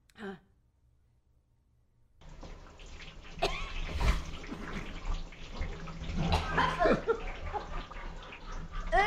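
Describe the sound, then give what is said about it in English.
Splashing and sloshing water as a man swims around in a septic tank. A brief soft sound and a quiet gap come first, then a dense, continuous stretch of splashes and churning water with sharper bursts throughout. “now we have something super interesting. What? And that is this guy swimming around in a septic tank.”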